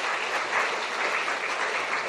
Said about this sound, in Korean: 박수로 환영하겠습니다.